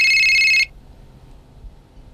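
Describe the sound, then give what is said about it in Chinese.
A telephone rings once: a bright, high electronic trill that lasts a moment and then cuts off abruptly, leaving near silence. “啊，对不起，听个电话。”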